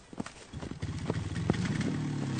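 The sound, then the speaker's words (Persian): A motorcycle engine hums low and steady as a passenger climbs onto the back, after a few scattered knocks and thumps. “میره و سوار ترک موتور ستار میشه”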